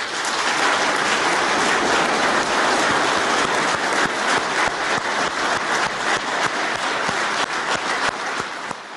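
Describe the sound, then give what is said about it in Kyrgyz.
Applause from a crowd in Tashkent after an election result announcement: dense, steady clapping that holds loud and unbroken for several seconds and eases slightly at the end. “Өзбекстандын борбордук шайлоо комиссиясынын төрагасы Мирза Улукбек Абдысаламовдун жогорудагы жарыясы Ташкентте мына ушинтип кол чабуулар менен кабыл алынды.”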